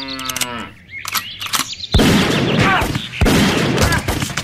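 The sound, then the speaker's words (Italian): Gunshots fired by a man in a cowboy hat leaning on his pickup truck: two sharp, loud blasts, each followed by a sustained rush of noise, after a brief low, drawn-out call at the start. “E poi mi ha sparato nei testicoli.”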